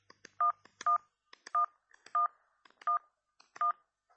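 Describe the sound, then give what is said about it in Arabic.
Touch-tone telephone dialing to call home: six clear electronic beeps at a steady pace, each preceded by a faint button click, heard alone against a quiet background. “أما اتصل بالبيت”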